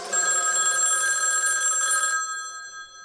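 A telephone bell rings in a steady, bright trill for about two seconds, then cuts off and fades away.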